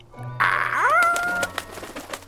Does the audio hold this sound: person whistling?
no